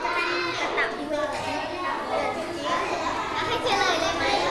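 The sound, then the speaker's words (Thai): Groups of children talk loudly in a classroom, making continuous, dense, overlapping chatter with high-pitched voices rising and falling throughout. “แต่ละกลุ่มคือเสียงดังมากนะแต่ละกลุ่มเสียงดังมากเลยนะ”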